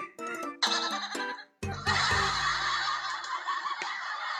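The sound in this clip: A sheep bleating in distress, a run of loud, wavering, strained cries with a sharp noisy burst partway through and a long drawn-out call after it.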